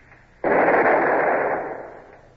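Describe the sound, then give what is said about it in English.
A long nine cannon fires once from a ship's forecastle, a single sudden loud blast that holds as a broad roar and then fades away over about a second and a half. “Show them some shooting. Stand by, gun crew. Give me the lanyard.”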